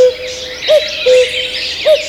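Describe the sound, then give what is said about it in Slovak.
A cuckoo calls three times, soft hooting notes spaced unevenly over a steady faint tone, with no voices. “Kukučka, kukučka, o koľko rokov sa vydám?”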